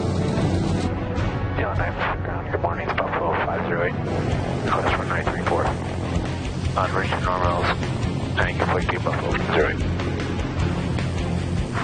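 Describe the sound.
An aircraft flies up a valley, giving a steady, broad engine drone that runs throughout beneath a man's continuous talking.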